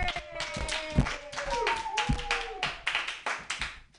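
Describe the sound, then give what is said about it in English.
Audience clapping greets a comedian taking the stage at a happy-hour open mic. Uneven, moderately light applause with sharp individual claps lasts a few seconds, with a few voices calling out over it. “put your hands together, everybody”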